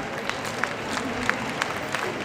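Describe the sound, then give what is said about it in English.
A wave of applause spreads through a huge street crowd as a convoy carrying Fidel Castro's ashes approaches: soft, continuous clapping with scattered sharper claps standing out. “Soon, officials announce the convoy is approaching and the huge crowd falls silent. A wave of applause rolls up the street.”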